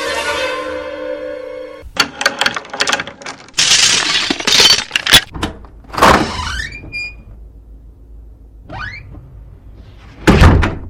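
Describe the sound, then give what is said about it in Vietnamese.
A key goes into a door lock and the door opens: a run of sharp metallic clicks and rattles, a louder scraping turn of the lock, then a rising creak as the door swings, with a few dull knocks. “Ngoài cửa có tiếng chìa khóa cho vào ổ, rồi mở cửa.”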